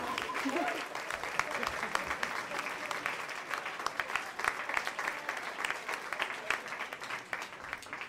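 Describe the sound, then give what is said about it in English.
Audience applause at a stand-up comedy show, a steady wash of many hands clapping that runs through the whole clip at an even, moderate level. “Okay, put your hands together. Give a warm welcome to David.”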